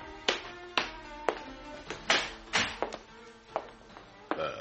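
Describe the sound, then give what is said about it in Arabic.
Knocking on a door: many sharp raps come in irregular clusters, loud and crisp, with each knock decaying quickly. There are no voices. “مين اللي جاي يخبط علينا في السعادة؟ خليك هنا واني حفتح الباب.”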